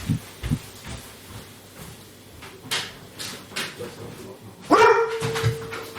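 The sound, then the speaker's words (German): A pet dog gives one short, sharp bark with a brief tonal tail during a quiet evening beside a glowing barbecue. Earlier there are only a few faint low thumps, and no one talks over the bark. “Na, was war denn das? Hm? Hast du mich jetzt angebellt?”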